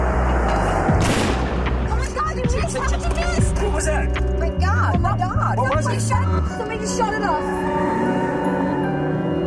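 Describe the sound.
A single loud gunshot aimed at a vehicle's gas tank cracks out early on, followed by a low rumble and then several excited voices talking over the remainder.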